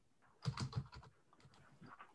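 Faint keystrokes on a computer keyboard: a quick cluster of taps followed by a few softer, scattered presses.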